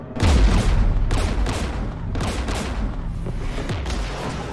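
Anti-aircraft guns in a video game fire at a shuttle in a dense, continuous barrage. Several heavy booming blasts punch through a steady rumbling roar of gunfire.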